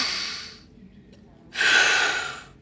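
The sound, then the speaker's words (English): Deep breathing during a stethoscope chest exam in a sick bay: two long, airy breaths separated by a quiet pause, the second one louder and breathier than the first. “All right, deep breath in. Out. One more time.”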